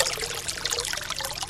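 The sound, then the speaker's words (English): Liquid trickling from a new distillation still in operation, used to distill native and wild-harvested plants: a soft, continuous watery trickle, fairly faint, lasting about a second and a half. “That's the sound of the partners' new still in operation.”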